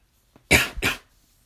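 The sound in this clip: A person coughs twice in quick succession, two loud, breathy bursts with a short gap between them, alone and otherwise quiet.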